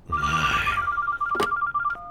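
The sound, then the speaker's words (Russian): A telephone rings with a rapid, warbling electronic trill, repeating steadily and fairly faint. “Ой, телефон. Ничего, позвонит и перестанет.”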